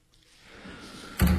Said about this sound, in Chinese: 黎希颖关上衣柜